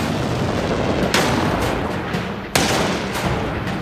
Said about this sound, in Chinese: 命令炮手向逼近的马蒂尔达坦克开火。